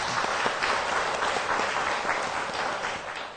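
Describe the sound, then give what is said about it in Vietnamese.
Applause from a class of students clapping in encouragement during a lesson, a dense, steady patter of many hands that fades slightly at the end. “Rất tốt, chúng ta vỗ tay khích lệ một chút.”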